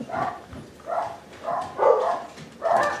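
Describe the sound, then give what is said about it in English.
Dogs bark in a short, irregular series of about five mid-pitched barks at moderate loudness, separated by brief gaps. “they brought dogs. Dogs? Do you like dogs?”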